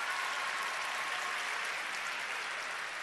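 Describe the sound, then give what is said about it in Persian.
Audience applause for fathers at a Men's Day gathering: dense, steady clapping that holds at an even level for the whole stretch, with no voices standing out. “یه دست به افتخار باباهاتون بزنید”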